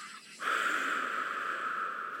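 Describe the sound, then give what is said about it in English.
A forceful exhale blown out through the mouth during a breathing exercise: a loud, steady breathy rush that starts abruptly and holds for nearly two seconds, with no talk. “We're going to inhale through our nose, but we'll blow it out of our mouths. So exhale, drive those ribs in, back, and down.”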